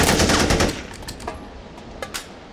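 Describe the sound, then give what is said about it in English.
Automatic rifle gunfire opens with a loud rapid burst of shots, then the sound fades and a few scattered sharp cracks follow. “You got a license for that automatic rifle, Mr. Washington?”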